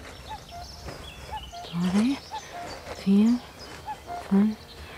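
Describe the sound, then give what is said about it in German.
A cuckoo calls its two-note, falling song several times at steady intervals, faint against other sounds, with people talking. “Ja, der Kuckuck.”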